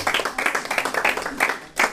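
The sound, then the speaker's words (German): Applause from a gathering as a couple is introduced, heard as quick, uneven bursts of hand claps that come and go in pulses through the two seconds, fairly loud and without talk. “Kalle und Jenny, schönes Paar, Applaus.”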